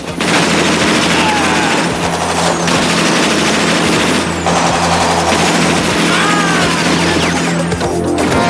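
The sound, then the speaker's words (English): Gunfire from a Browning pistol during a film shootout: a few sharp, loud shots cut through a heavy, continuous engine-like rumble and a dense, noisy background. “He shoots three more armed punks, then points the Browning upwards and blows two punks off a wall from where they're firing down.”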